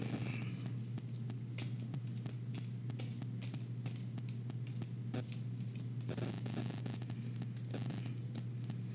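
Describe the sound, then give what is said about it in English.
Tarot cards from a Crowley Thoth deck being handled and flipped: many short, crisp papery snaps and rustles, faint, over a steady low hum. “Let's flip a card.”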